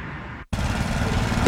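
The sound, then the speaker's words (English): A lawn mower engine runs as a steady, dense roar. It drops out for a split second near the start, then comes back at the same level. “What? I'm just mowing the lawn.”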